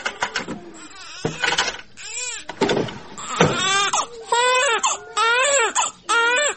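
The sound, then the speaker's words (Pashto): A baby cries in a room with loud, repeated wailing bursts, broken by short gasping pauses. Some cries are shaky, whimpering wails and others are sustained, strained howls. “دلته په کوټه کې ماشوم آراموم.”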